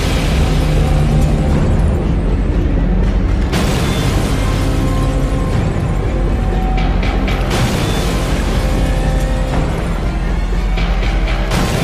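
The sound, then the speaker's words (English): Bombs planted across a city explode in a dramatized scene: loud, dense, continuous roaring blasts and rumbling, broken by a few sharp bursts and creaking mechanical clatter. “The bombs he set all across Gotham caused a great flood in the city.”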